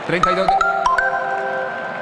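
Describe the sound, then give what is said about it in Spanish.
A broadcast signal chime opens a Colombian football match transmission: a short run of bright, bell-like notes, the last one ringing on and slowly fading. “suena la señal que une a Colombia”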